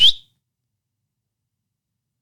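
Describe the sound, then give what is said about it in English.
A single short, high whistle for a dog recall, a quick upward-sliding chirp that cuts off almost at once, then silence. “I want to set up a whistle recall that's a whistle like this,”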